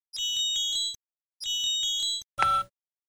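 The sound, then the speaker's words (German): Telephone ringing with an incoming call: two long, bright electronic trilling rings separated by a short pause, then a brief, different louder tone. No voices. “Die Gedanken des Kommissars kreisen um die Details des Falls, als Helgas Anruf ihn aus den Gedanken reißt.”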